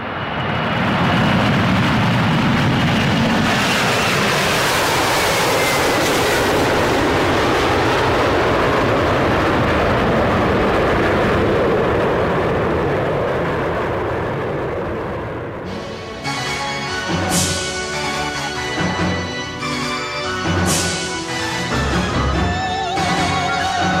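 Airplane taking off: a loud, broad, sustained engine roar for about fifteen seconds that then fades and gives way to rhythmic music.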